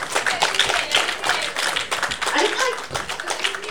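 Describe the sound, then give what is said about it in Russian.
Audience clapping at a stage event, a busy, continuous patter of hands with a voice talking over it. “Ну, пожалуйста, давайте похлопаем”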